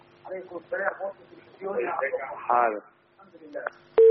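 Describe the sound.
Talk over a call-in telephone line, then a telephone call disconnects and a steady, loud line tone cuts in abruptly at the very end.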